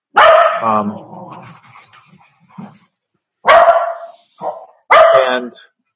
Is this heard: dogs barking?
yes